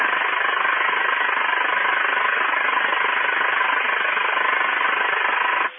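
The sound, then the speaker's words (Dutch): An interfering radio signal on the 10 metre FM band comes through as a harsh, steady buzzing hiss. It keeps an even loudness throughout and stops sharply at the end. “Dat is een verrekte vervelend signaal die regelmatig op de 10 meter FM-band te verschijnen komt.”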